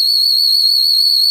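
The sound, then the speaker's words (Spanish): A shepherd's whistle blown in a single shrill, high, unbroken tone that holds steady and loud throughout, heard alone. “el pastor cogió su silbato y silbó.”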